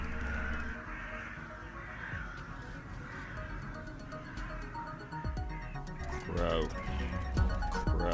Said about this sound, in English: Crow.